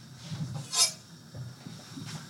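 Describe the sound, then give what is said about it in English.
A small kitchen pan and a knife being picked up give faint metallic clinks and soft handling knocks, with one brighter clink standing out. “I'm going to use a little pan here. It's this one here. I'm going to get the knife from here.”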